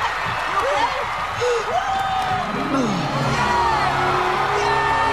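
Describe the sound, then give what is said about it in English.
A crowd cheers and whoops without pause as the winner of a ball game kisses a gold cup, shrill shouts rising and falling over a continuous roar. “The crowd go wild as he kisses the cup and lifts it into the air.”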